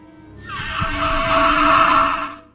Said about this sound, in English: I give you the resonating chamber of a velociraptor. Listen to this.